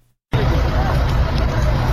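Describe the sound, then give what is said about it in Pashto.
A vehicle stuck in mud on a damaged road in Nish district, Kandahar, being pulled out: a loud, steady roar and rumble starts abruptly after a brief silence, with a hubbub of voices mixed in. “پر دغه غزیدې لار خلک دغه موټر درا ایستلو په اڅه کې دي چې د لارې د خرابوالي لامل په یو مند کې بند پات دي”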